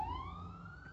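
A siren wail: one continuous tone with bright overtones, rising steadily in pitch over a brief second, heard alone without voices.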